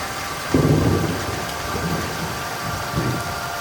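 Steady rain pours down with low rumbles of thunder rolling underneath, the heaviest swell coming early and smaller rumbles following.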